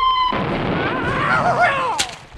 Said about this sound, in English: We now go over to Sebastopol wall to hear the arrival of the missile.